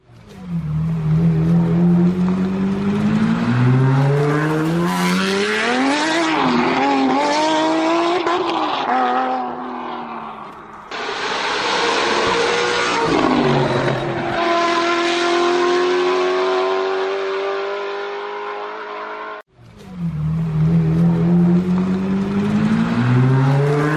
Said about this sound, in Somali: gaari cusub oo uu farsameeyay injineer Afgaani ah oo lagu magacaabo Ahmed Rida ayaa maalintii 4-dii lagu soo bandhigay dalka Afghanistan kaasi oo ah noocyada loogu tartamo orodka